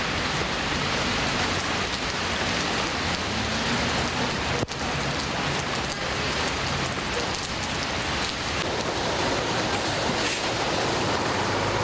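Rain falls on the streets of Baku, where the drains are blocked, making a dense, continuous hiss of drops striking surfaces that stays loud and even throughout.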